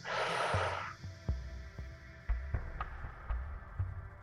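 A deep breath drawn in, heard as a loud, airy rush at the very start, followed by quiet, steady, rhythmic low thumps.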